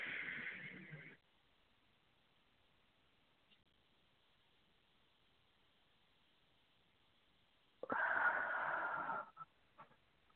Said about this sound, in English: Let's breathe again, family. Be still and know that I am God. Breathe.